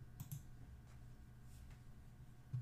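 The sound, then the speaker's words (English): Soft mouse clicks sound while a character sheet is used in a tabletop role-playing session, a few faint, sharp ticks over quiet background hiss. “Just select it and then click initiative on the character sheet.”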